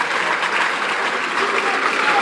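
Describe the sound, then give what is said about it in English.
Baseball fans clap in the stands for a player, a dense, steady wash of many hands that holds at an even, fairly loud level throughout with no break. “Rams fans clap it up for Perez.”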